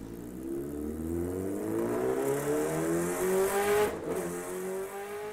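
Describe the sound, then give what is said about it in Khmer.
A motorbike speeds away with its engine droning loudly and steadily, the tone climbing gradually in pitch over several seconds with no other sounds. “ហេងក៏បានជិះម៉ូតូយ៉ាងលឿនចេញបាត់ទៅ”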